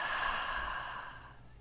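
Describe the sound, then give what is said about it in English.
A deep breath drawn in and slowly exhaled, a soft airy rush that holds steady and then fades out, with no talking. “take a moment, take a nice deep breath, and then exhale out.”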